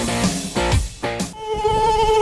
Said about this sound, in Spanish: Ya llega el buen tiempo y con él los visitantes no deseados en tu hogar, las moscas y los mosquitos.